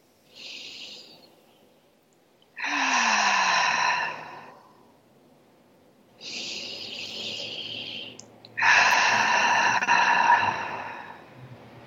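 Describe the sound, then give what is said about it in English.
Two slow, deep breaths, each a soft airy inhale through the nose followed by a longer, louder exhale out the mouth, heard alone with quiet gaps between them. “just with a few deep breaths. So you and I will do it together, and anyone listening can join in. We'll just take an inhale through the nose and exhale out the mouth.”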